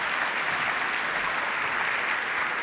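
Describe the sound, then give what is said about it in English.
An audience claps in steady, dense applause, a loud, even patter that continues without a break for the whole stretch. “All right, let's give her a round of applause.”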